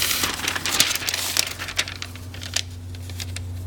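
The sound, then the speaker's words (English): Paper sheets crinkling as used SRP paper is removed and a fresh sheet is laid down during book pressing. A few soft rustles and crackles over a steady low hum. “get rid of this SRP paper, place our new SRP paper down.”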